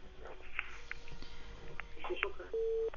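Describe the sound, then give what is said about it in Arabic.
A short, steady telephone line tone from an incoming call sounds near the end, following a stretch of voices and faint background noise. “معانا تليفون. قول الو.”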